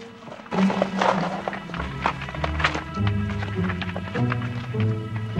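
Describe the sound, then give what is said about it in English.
Hooves of a horse walking slowly away over damp, rocky earth at night beside a river, a steady, uneven clip-clop of many strikes layered over low sustained tones. “The boy turns his horse round and rides slowly away.”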